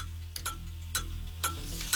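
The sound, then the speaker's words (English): A game show countdown clock ticks through a 60-second round: sharp, regular ticks about twice per second over a steady low drone, with no voices. “10 questions, 60 seconds on the clock. Good luck. The game starts now.”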